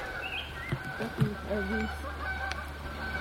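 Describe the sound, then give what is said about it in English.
Canada geese give a few short, nasal honks over a low, steady background hum. The calls are fairly faint and spaced unevenly. “Tell you, if we started eating Canada geese...”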